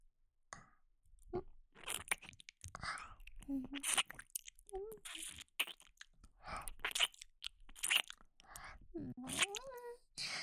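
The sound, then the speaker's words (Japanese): Wet licking and mouth sounds play close to the ear in an intimate, ear-licking style. Irregular soft smacks, clicks and slurps come in many short bursts, with brief murmured vocal sounds between them. “お耳舐めて、僕くんのことも元気にしてあげるからね。それじゃ、お耳、いただきます。”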